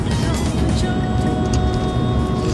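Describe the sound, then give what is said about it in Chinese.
A car drives through an underground tunnel on the way to the airport, giving a dense, steady roar of engine and road noise that stays even and unbroken throughout. “我们正在经过一段去往机场的地下隧道。”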